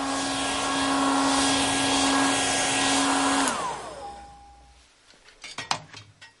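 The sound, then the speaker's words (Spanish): A hair dryer runs with a steady whirring drone and a whining hum while drying a woman in her seventies' hair after a bath. It then switches off and winds down, its pitch falling, followed by a few faint clicks. “Le seca el pelo.”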